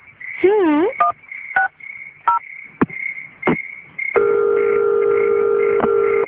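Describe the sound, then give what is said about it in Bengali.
Telephone keypad tones as a hotel reception number is dialed: several short beeps sound over a steady line tone, followed by a long, even electronic tone that holds to the end. “দাঁড়া এখনই phone দিচ্ছি। শোন না, রিসেপশনের নাম্বারটা যেন কত, 1 2 3 না?”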